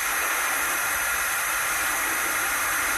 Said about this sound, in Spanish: El sonido de la olla express, a ver, dame.